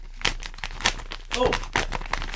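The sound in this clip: Crinkling and tearing paper as an envelope is opened for a mock best-actor award announcement. Uneven rustles and rips mix with people talking.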